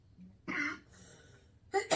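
Coughing from thick incense smoke during a Samhain offering ritual: a few short, harsh coughs and throat-clearing bursts with a quiet gap between the first and the last two.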